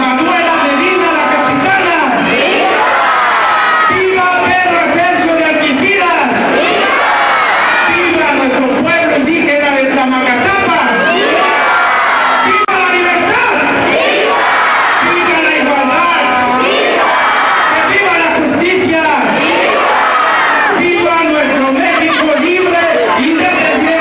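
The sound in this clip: A crowd cheers and shouts at a Mexican Independence night celebration, a loud, dense and unbroken mass of voices that lasts throughout.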